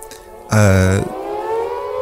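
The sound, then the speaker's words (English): Siren sound effect played as a joke: a single short, loud wailing blast of about half a second, then dropping to a fainter lingering tone. “There we go. It's the Oddy Memorial sacking siren.”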